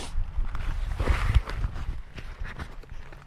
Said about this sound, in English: Hang on, let me just climb up on this rock.